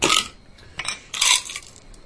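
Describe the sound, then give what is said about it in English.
A four-sided pyramid die is rolled during a tabletop fantasy roleplaying game, giving a few short, bright clattering bursts separated by quiet gaps. “So three rolls of the four-sided dice, and then times it by 10.”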